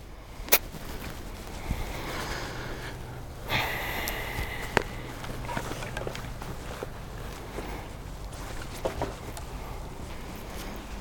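A golf club strikes the ball on a tee shot, a single sharp, crisp crack near the start over a steady hiss. A few softer clicks and rustles follow, with one more sharp tick later.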